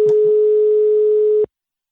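Telephone ringing tone on an outgoing call: one steady, fairly low tone sounds alone for well over a second and then cuts off into silence.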